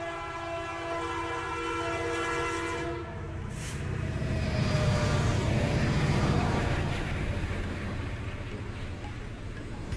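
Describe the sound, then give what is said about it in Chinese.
A horn blares from an NJ2 diesel locomotive hauling a train up the gradients of the Qinghai-Tibet Railway. The sustained horn lasts about three seconds, then gives way to the loud, steady rumble of the moving train. “列车需要更强的动力爬坡，换成了强劲的 NJ 二型内燃机车。”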